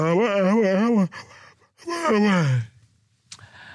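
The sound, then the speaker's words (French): Two long, drawn-out voiced yawns from a tired man who has only just arrived at work. Each yawn wavers in pitch, and the second slides downward before fading. Quiet breathy gaps fall between them. “il est déjà en train de bâiller, il vient à peine d'arriver.”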